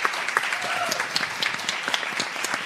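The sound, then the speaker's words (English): Live studio audience applauding at a roundtable show, a dense, steady patter of many hands clapping at an even loudness throughout. “Back to the roundtable live from the window. We have a live studio audience.”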